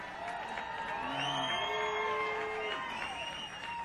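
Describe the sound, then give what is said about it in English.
A studio audience applauds and cheers at moderate volume, with whoops and excited voices rising over a steady patter of clapping before it eases slightly at the end. “These are the original clappers in the audience.”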